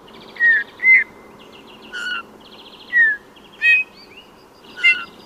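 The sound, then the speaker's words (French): A Eurasian bullfinch sings six soft, pure whistled notes, single or doubled, spaced irregularly with short pauses, over a faint low background hiss. “Il n'y a qu'à écouter le bouvreuil pivoine qui chante en posant ses notes ou doubles notes.”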